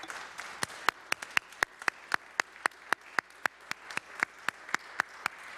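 Applause in a Senate chamber welcoming a guest, many sharp, evenly spaced claps in a steady rhythm over a softer, continuous wash of clapping.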